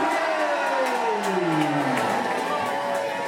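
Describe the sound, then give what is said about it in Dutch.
A crowd cheering in a sports club canteen for a runner, with loud, sustained shouting and whoops whose pitch glides downward over a few seconds. “We gaan weer even juichen. 3, 2, 1,”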